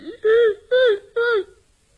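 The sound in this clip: An old woman's crying, voiced by a performer as three loud wailing sobs of similar length, each arching in pitch and then falling away, followed by quiet.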